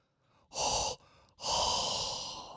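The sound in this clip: Hot breath exhaled straight into a microphone in two breathy bursts: a short one first, then a longer, forceful blow that slowly trails off, loud and close with no talk.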